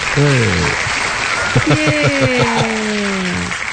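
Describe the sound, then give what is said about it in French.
Applause sound effect: a steady wash of clapping that holds the whole time while a voice speaks over it. “On applaudit. Oh non, attends un peu, j'ai des sons de ça quelque part, me semble. T'as un clap word. J'ai un clap, clap, clap, clap, clap, clap, clap.”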